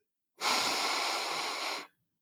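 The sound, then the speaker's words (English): One long, deep breath during a guided breathing exercise: a steady, airy hiss that holds for about one and a half seconds and then stops cleanly, with no talk. “You're breathing it in and you breathe out. All right. All right. again, take one breath in again”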